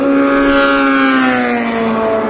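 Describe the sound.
A Delta Wing race car passes by at night. It makes a loud, smooth, strongly tonal engine whine whose pitch drifts steadily lower over about two seconds.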